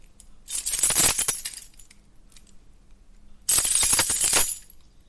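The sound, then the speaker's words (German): A bunch of keys is jingled to imitate the song of a corn bunting, with two bright, rattling jangles of about a second each and a quiet pause between them. “ich habe jetzt mal meinen Schlüsselbund hier hingelegt und jetzt geht es mal los. Passt mal auf, spitzt mal eure Ohren. Achtung, jetzt singt die Grauammer.”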